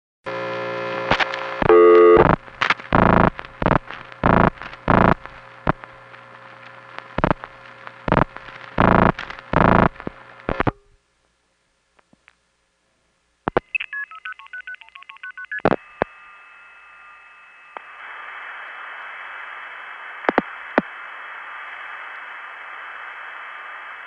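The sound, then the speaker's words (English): Touch-tone dialing opens the call, rapid bursts of beeps, then a hush broken by a few clicks from telephone exchange switches and short tone patterns as the call connects, ending on a steady sustained tone. “It'll go ta-da-da, tick, ta-da-da, and then finally tick before it rings the step that the call ends up on.”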